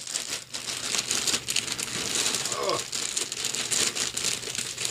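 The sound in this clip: A holly-patterned gift bag is ripped open at a Secret Santa exchange, giving loud, continuous crinkling and crackling paper noise while people talk over it.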